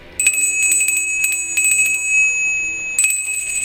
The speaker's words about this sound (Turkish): Yemek zilini duyunca çok sevinmişler. Yaşasın yemek zamanı! Zilin sesini duyan çocuklar önce ellerini yıkamışlar.